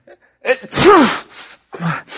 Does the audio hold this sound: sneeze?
yes